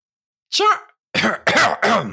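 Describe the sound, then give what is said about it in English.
Throaty coughing to clear something caught in the throat: one cough, a short gap, then three quick, voiced coughs in a row, loud and close together. “Pardon me. I had something caught in my throat.”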